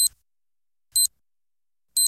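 Hourly time signal on an Albanian radio station marking the top of the hour: three short, high-pitched beeps one second apart in otherwise near silence, the first partly cut off.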